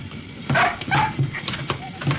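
A dog whimpering as it squeezes through a doorway at the same moment as a man, giving a few short, high whines and yips over a rustling background.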